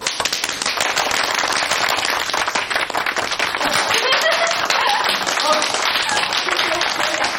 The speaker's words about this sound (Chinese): 别愣着了，鼓掌吧！